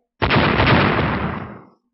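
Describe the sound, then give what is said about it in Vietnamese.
Golden blades of light exploding in mid-air, heard as one dull, rumbling blast that starts abruptly, holds loud for over a second, then fades out. “Một chuỗi âm thanh trầm đục bỗng nhiên vang lên. Lưỡi dao ánh sáng màu vàng liên tục nổ tung giữa không trung”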